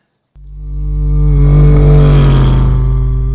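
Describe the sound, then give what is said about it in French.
Vehicle engine noise that starts abruptly and swells to a loud, steady, low droning hum with strong harmonics. It holds near full volume to the end, with no voices. “l'effet Doppler-Fizeau, dont nous avons parlé le mois dernier, celui qui décale les sons vers l'aigu quand un véhicule s'approche de nous et vers le grave quand on s'éloigne. D'ailleurs, je crois qu'on peut entendre ce son.”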